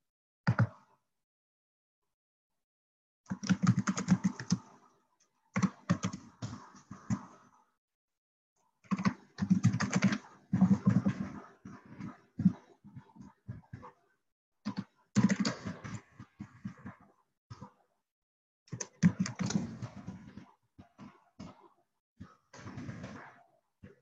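Keys clatter on a computer keyboard as a message is typed into a chat box, in several separate bursts of quick, light keystrokes with silent pauses between them, faint throughout.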